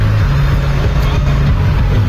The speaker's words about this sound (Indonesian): ada iring-iringan nih, ada berapa nih? Ada 5 atau 6 truk tebu nih ya.